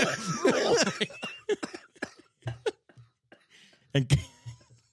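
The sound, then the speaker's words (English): Coughing from liquid in the chest comes as several short, harsh bursts in uneven clusters, some louder than others, with a little vocal sound mixed in at the start. “So, you know how you have kind of like liquid in your chest and that's what makes you cough?”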